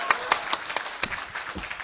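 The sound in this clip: A church audience claps hands in praise with a steady, quick beat of about four claps per second. The claps are fairly soft and even throughout.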